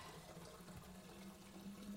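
Water runs from a tap to fill a kettle for tea, a steady, even rushing hiss that continues unbroken throughout with no voices.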